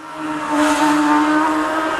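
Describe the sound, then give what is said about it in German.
Superbike and supersport racing motorcycles at full throttle, a dense, loud engine roar holding a steady, high-revving pitch throughout, with layered tonal whine and no voices. “Das ist Superbike, Supersport, Sportbike, internationales Topfeld, Vollgas auf Champions League Niveau”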